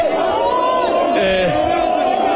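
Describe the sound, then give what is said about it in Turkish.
Football fans chant loudly and continuously to welcome Mohamed Salah, a sustained, tuneful mass of voices holding a steady chant throughout. “Evet, taraftar bir yandan tezahüratlarla karşılıyor Muhammed Salah'ı”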